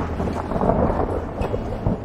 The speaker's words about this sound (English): It should be snowing this time of year. Buddy does not like this kind of weather. The rain pounds on the roof of the house